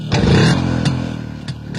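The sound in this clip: A Japanese motorcycle engine, about four years old, starts and revs: a loud, throbbing low rumble runs throughout, broken by a few sharp, clattering bursts.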